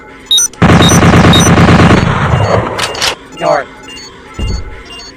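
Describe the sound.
Automatic gunfire from a full-auto scoped weapon in a video game: one loud, sustained rapid burst of about a second and a half, followed by a few scattered shorter game effects and thumps.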